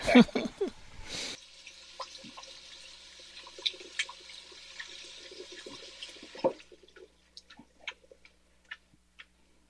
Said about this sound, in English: Wash my hands off real quick, y'all. I got peanut butter on them.